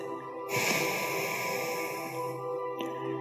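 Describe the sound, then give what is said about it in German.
A long exhale through the right nostril during a breathing exercise, an airy nasal rush starting after a short quiet moment and lasting about two seconds, followed by a brief fainter puff. “Löst das Banda, atme rechts aus.”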